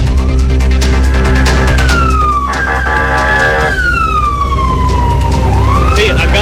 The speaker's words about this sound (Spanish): Un vehículo policial acá.